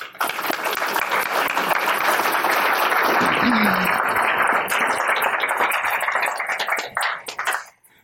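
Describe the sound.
An audience applauds to welcome speakers to an evening talk. Steady, dense clapping holds for several seconds and then tapers off at the end.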